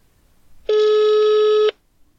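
A single steady telephone tone sounds while a call is being dialled, one unbroken mid-pitched beep lasting about a second, clear and alone against a quiet background.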